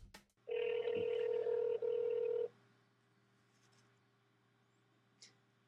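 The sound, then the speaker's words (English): Telephone keypad tones dialing a toll-free number: a loud, steady run of dialing tones with a couple of brief breaks, preceded by a click and followed by a quiet open line. “So we'll start that by dialing 1-800-WX-BRIEF.”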